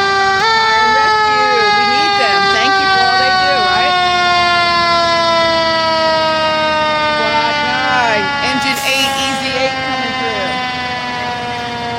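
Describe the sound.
A fire engine siren, Rockdale County Engine 9, rolling in a holiday parade, holds a loud, steady, harmonic-rich wail whose pitch drifts slowly downward, with short chirping warbles breaking in now and then.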